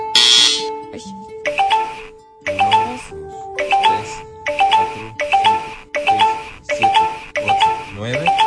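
An electronic ding-dong chime signals that a ten-second time limit is up. A bright, tonal pattern repeats in regular bursts, about seven times, loud and steady throughout.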